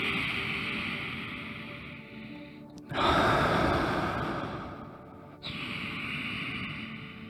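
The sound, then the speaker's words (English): A deep breath during a guided healing meditation: a long, steady breathy draw in, then a louder, rushing release through the mouth that fades before another breath begins. “breathe in a bit more. And even a bit more. Ah, now release that through the mouth. Let's do that again.”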